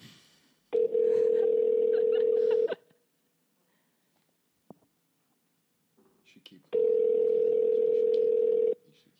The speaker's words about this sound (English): Okay, we're dialing. We're dialing. Oh, speakerphone.